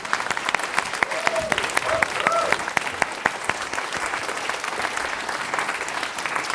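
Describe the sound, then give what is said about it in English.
An audience at a live comedy show at a convention applauds in dense, steady clapping that holds at a constant loudness throughout. “Everybody give Dan a round of applause for Dan.”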